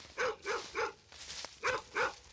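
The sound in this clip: A border collie barks in short, clipped bursts: three quick barks, a brief gap, then two more at a medium pitch, fairly loud and with no other sound.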